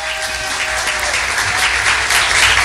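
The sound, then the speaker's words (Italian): Loud applause from an audience honouring the association À Bras Ouverts, a dense, steady roar of many hands clapping that holds for the whole stretch and swells slightly near the end, with no voices over it. “si applaude a questa associazione a bras ouverts, a braccia aperto”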